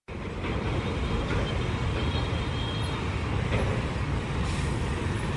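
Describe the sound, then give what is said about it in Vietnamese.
Heavy road traffic with container trucks and lorries streaming bumper to bumper along a congested morning road toward a port industrial zone. A dense, steady roar holds without breaks throughout. “Bảy giờ 30 sáng, sau khi hết khung giờ cấm, dòng xe container, xe tải bắt đầu nối đuôi nhau chạy vào đường Nguyễn Duy Trinh từ vòng xoay Phú Hữu đến khu công nghiệp Phú Hữu và ngược lại.”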